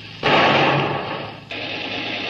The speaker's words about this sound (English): Prepare forward gun for action. Motor launch off starboard side, running without lights. Put a shot across her bow